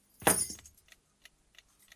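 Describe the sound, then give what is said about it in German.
A bunch of keys thrown down, making one loud jangling clatter that rings briefly and then fades into a few faint, scattered metallic clinks. “Die Schlüssel müssen Sie selber hergeschmissen haben.”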